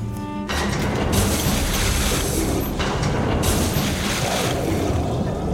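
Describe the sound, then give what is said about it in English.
In a video game, a bathysphere lever is pulled and the sphere starts to descend. A sudden mechanical onset gives way to a loud, sustained rumble with a rushing, watery quality that carries on steadily. “What kind of sick elevator is this? Bathysphere lever.”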